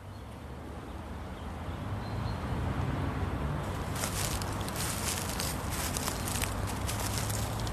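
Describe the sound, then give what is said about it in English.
Footsteps walk along a pathway beside a baby's burial plot, a soft crunching shuffle of many steps under steady, fairly loud background noise with no talking. “And we walk along the pathway here.”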